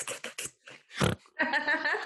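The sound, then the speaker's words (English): A person gives one short, harsh nasal snort, pig-like and gritty, set between brief bursts of voices talking. “You got a pandemic snort. Those are hard to find.”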